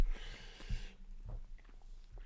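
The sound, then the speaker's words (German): A person takes a quiet sip of a drink: a soft, airy slurping hiss at the start, then faint low knocks and small mouth sounds, with no talking. “Ich muss noch was trinken. Ja, trinken wir mal einen Schluck.”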